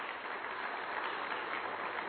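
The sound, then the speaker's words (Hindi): Applause from an audience at a ceremony, a continuous, even patter of many hands clapping at a moderate level with no break or swell. “इसके लिए जोरदार तालियां”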